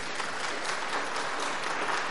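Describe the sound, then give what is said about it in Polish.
An audience applauds the speakers after a lecture with a steady, dense burst of clapping from many hands that stays even in loudness throughout. “Brawa dla naszych prelegentów.”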